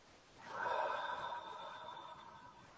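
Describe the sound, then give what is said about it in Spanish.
A deep cleansing breath, part of an exercise of inhaling through the nose and exhaling through the mouth: one long, soft, airy rush that swells quickly and then slowly fades, alone without speech. “Esto se hace inhalando profundo por la nariz y soltando todo al exhalar por la boca.”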